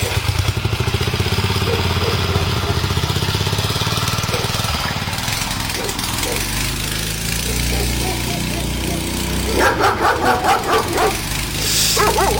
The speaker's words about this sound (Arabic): كلاب كلاب، ساعدونا ساعدونا